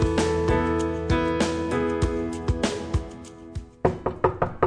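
Knocking on a door: a run of sharp, hard raps over a sustained tonal background, spaced out at first and then bunched into a quick cluster in the final second.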